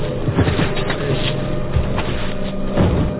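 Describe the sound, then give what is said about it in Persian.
A car speeds in with a steady, throaty engine rumble that holds low and continuous throughout, with no clear swell or fade. “این کیه که داره به تاخت با ماشین میاد؟”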